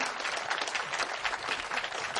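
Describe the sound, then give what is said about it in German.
Applause from an audience at a live music event: steady, dense clapping, fairly faint, runs without a break through the whole two seconds. “Applaus, Applaus für Trisha Collins, Merit Esther und Denise Dombrowski.”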